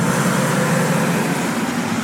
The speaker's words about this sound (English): I have no idea why it's so loud when these cars go by. Like, just because it's raining outside?